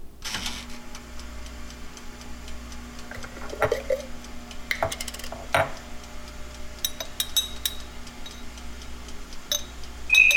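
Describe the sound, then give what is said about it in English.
A toaster oven's controls are worked with a few sharp mechanical clicks and light ticking over a low, steady hum. The whole is fairly faint and there are no voices. “Let me see if I remember how to work this toaster oven.”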